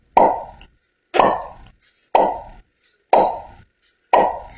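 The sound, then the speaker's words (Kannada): Five sharp pops from soda bottles being opened at a small shop, evenly spaced about a second apart, each with a quick hissing tail that fades before the next. “ಅಜ್ಜಿಯ ಮನೆಯ ಸಮೀಪದಲ್ಲಿ ಒಂದು ಅಂಗಡಿ ಇದ್ದಿತ್ತು. ಅಲ್ಲೇ soda bottle ಅನ್ನು ಒಡೆಯುತ್ತಿದ್ದರು.”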